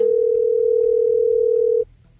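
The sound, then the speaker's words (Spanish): Ringback tone of an outgoing telephone call: a single loud, steady, mid-pitched tone held for nearly two seconds, then abruptly cut off, leaving only a faint low hum. “Ahí está sonando, vamos a ver si nos contesta.”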